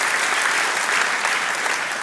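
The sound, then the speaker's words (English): A church audience applauds at an Easter service: many hands clap in a dense, even patter that holds steady for the whole stretch, with no voices standing out. “Yep, and clap for you.”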